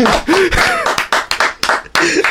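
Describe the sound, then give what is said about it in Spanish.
Clapping and applause, with a few sharp hand claps cutting through excited shouting voices. “¡Vamos! ¡Aplauso!”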